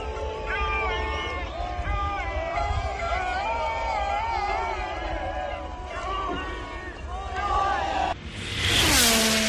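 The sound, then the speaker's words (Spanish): Lewis Hamilton's Ferrari racing car passing at full speed at the Fiorano track, a sudden loud, bright engine rush bursting in near the end after several seconds of people talking. “a ver si nuestro gran técnico, los sonidos de Hamilton en Fiorano, a ver si lo podemos oír.”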